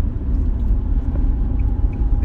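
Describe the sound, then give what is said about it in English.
Steady low road rumble from inside a car driving late at night toward a medical center: a continuous, even drone with no talking. “I'm out in the car on the way to the medical center”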